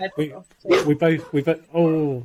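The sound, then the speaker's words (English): Dogs barking at home: a few loud, tonal barks and yelps in an uneven run, ending in a longer whining yowl. “that's my dog barking. Sorry about that.”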